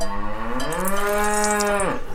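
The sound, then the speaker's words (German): A cow lows on a mountain pasture in Abruzzo, central Italy, where dairy cows are milked. One long, resonant moo rises a little at first, holds steady, then breaks off at the end, with no other sound around it. “Auf einer Weide in den Abruzzen. Das ist eine Bergregion in der Mitte Italiens. Hier werden die Kühe gemolken.”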